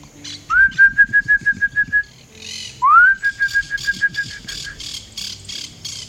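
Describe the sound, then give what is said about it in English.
A person whistles imitations of bird calls, two clear whistled notes that each rise sharply and then hold steady, with quick fluttering pulses running beneath and between them. “Look at all them birdies and plants. Sweetie birdies, I can make a sound like them.”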